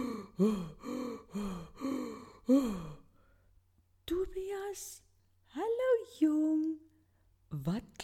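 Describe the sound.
Heavy, voiced panting from someone out of breath after running fast. A quick, steady run of gasping breaths is followed by a pause and then talking.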